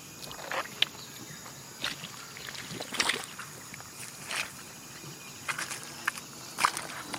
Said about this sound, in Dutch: Wacht, ik loop even een stukje om het uit te leggen.